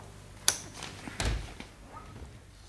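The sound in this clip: A safe being opened: a sharp click, then a heavier metallic thunk and a smaller knock, all fairly faint and spaced apart.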